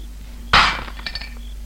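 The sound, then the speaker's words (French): A single sharp smash as a glass bottle is broken, followed by a brief scatter of tinkling glass fragments. “Allez, vas-y, curé, casse la bouteille et fais l'appel.”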